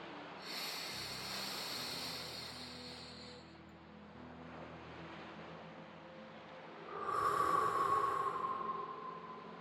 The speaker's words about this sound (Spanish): Respiro profundamente.